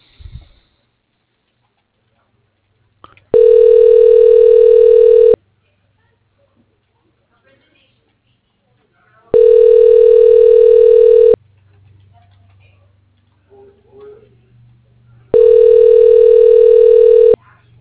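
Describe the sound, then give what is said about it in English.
Ringback tone of a telephone line rings while a call is transferred: three long, steady, mid-pitched rings with even gaps of near silence between them and faint low rumble in the pauses. “Please hold while your call is transferred.”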